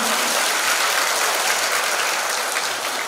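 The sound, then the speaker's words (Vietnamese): Applause from the audience at a Buddhist dharma talk in a temple: a steady, even roar of many hands clapping that fills the whole clip at constant loudness. “chúng ta cho một tràng pháo tay.”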